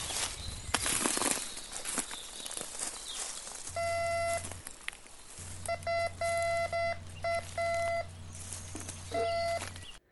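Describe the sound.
Footsteps crunch through a forest floor while a metal detector sounds in the mix. The crunching is loudest at the start, followed by several steady on-off electronic beeps over a low hum.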